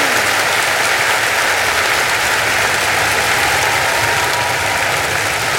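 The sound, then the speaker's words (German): Audience applause at a concert where performers are seated on stage: dense, steady clapping that fills the whole stretch at an even loudness, with no voices standing out. “Geben Sie den riesigen Applaus, die Wiener Debütanten!”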